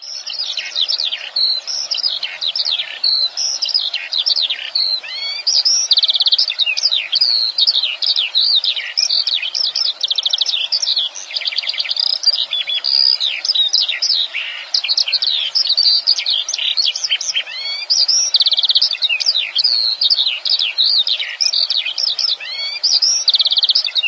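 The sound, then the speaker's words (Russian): Skylark singing: a continuous stream of rapid, high-pitched warbling and trilling song that runs unbroken and fairly loud throughout, with no pauses. “Жаворонок.”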